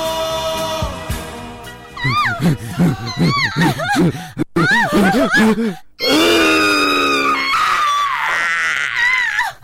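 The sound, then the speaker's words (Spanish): Rhythmic voiced panting and grunting: a fast series of short, pitched gasps in an even beat, broken by brief pauses, then a louder, more sustained stretch of strained vocal sounds. “con estos jadeos, con estos ritmos acompasados”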